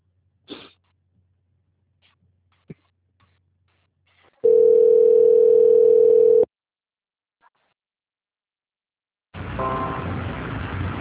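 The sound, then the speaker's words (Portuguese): A steady phone-line tone holds for about two seconds while a bank call is being transferred, after a few faint clicks. A loud burst of hissing line noise follows near the end. “eu vou pedir para o senhor aguardar um pouquinho na linha que eu vou transferir o senhor para o setor de qualidade do banco”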